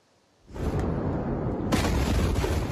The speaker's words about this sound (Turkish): Yüzlerce kilometre öteden duyulacak kadar şiddetli bir patlama.